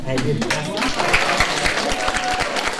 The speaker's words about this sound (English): Applause from other immigrants like him, hoping to get back to their previous careers.